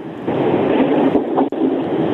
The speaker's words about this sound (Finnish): Mä olen tällä hetkellä siinä ensimmäisessä vaunussa, mikä on tällä hetkellä se viimeinen vaunu.